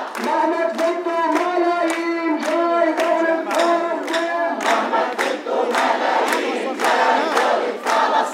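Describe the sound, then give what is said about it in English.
Hundreds of protesters chanting loudly against the Gaza war while marching through the hillside town of Deir Hana in Israel's Galilee, many voices shouting in unison in a steady, driving rhythm of repeated phrases. “Hundreds of people marching through the hillside town of Deir Hana in Israel's Galilee, loudly opposing the war in Gaza.”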